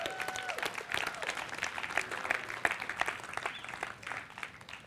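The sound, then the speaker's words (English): Audience applause during a sermon, a dense, steady burst of many hands clapping that swells and fades unevenly over about five seconds. “Yeah, give him a proper hand.”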